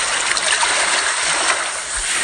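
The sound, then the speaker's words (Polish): A sea wave sound effect plays as a continuous, loud rush of splashing water noise, steady and unbroken from start to finish with no voices. “To prysznic, to może tak jednak mało działa, może lepiej morska fala.”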